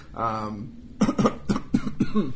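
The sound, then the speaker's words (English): A person coughs hard in a rapid run of several harsh, evenly spaced bursts, loud and rough. A short voiced sound comes just before them. “I'm coughing up a storm.”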